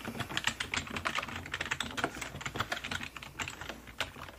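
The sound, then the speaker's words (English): Soft typing on a computer keyboard in a whispered librarian roleplay: many rapid, light key clicks in uneven bursts, with no talk. “So, let me go ahead and type that in.”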